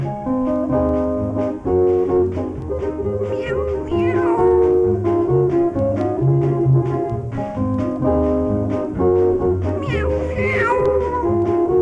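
Cat meowing within a Spanish-language children's song: a couple of rising-and-falling meows over steady, rhythmic musical accompaniment that plays throughout.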